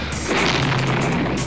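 Bullets strike during a Soviet tank's entry into Budapest as a hotel comes under fire: a loud, dense burst of cracking, booming impacts that runs almost continuously and ends abruptly.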